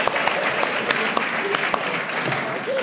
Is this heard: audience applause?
yes